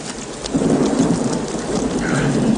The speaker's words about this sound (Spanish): Anímate, Will, está lloviendo. Sé que está lloviendo.